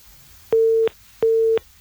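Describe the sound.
A telephone busy tone follows a disconnected call: two short, steady beeps of the same mid pitch, each under half a second, separated by a brief gap over faint line hiss.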